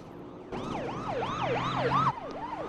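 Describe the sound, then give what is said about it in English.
Police car sirens wail as the cars roar past on a road in the opposite direction, loud rapid rising-and-falling sweeps over a low engine rumble that cut off abruptly after about a second and a half. “Elmo and Felix hurry down the road as police cars roar past them in the opposite direction.”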